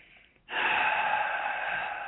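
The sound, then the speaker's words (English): A deep breath taken during a guided prayer with eyes closed. It starts abruptly after a quiet moment and holds as a loud, steady, airy rush for well over a second, with no talk over it. “So we close our eyes. We take a deep breath.”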